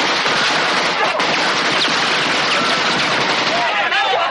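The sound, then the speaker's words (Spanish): Rapid automatic fire from an AK-47 assault rifle fills a film battle scene, a loud, dense, unbroken crackle of shots that rattles on for the whole clip. “Este es el rifle de asalto AK-47, el arma preferida de vuestro enemigo. Hace un ruido característico cuando lo disparan, así que recordadlo.”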